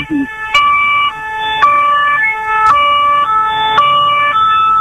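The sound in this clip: A police car siren wails loudly, a two-tone call alternating between high and low notes many times in a steady repeating pattern.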